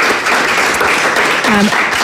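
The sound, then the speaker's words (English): A round of applause from an event audience for a chemist and the venue staff. The clapping is loud and steady throughout, and a brief voice is audible partway through. “Let's give him a round of applause anyway to David Walsh, chemist, and all of the staff.”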